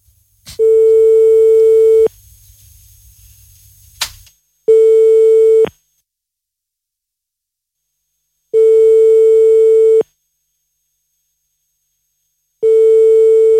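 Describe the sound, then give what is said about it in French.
Telephone line tone while a number is dialed: a steady, pure pitched beep about a second and a half long, repeating with long silent gaps. Four beeps sound, the last cut off, with a click between the first two. “Compose le numéro de téléphone, on appelle ce soir Maxi sur notre Coco.”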